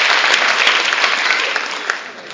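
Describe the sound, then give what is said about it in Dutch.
A crowd at a gathering in Bunschoten-Spakenburg bursts into applause: dense, loud clapping that tapers slightly toward the end. “Applaus.”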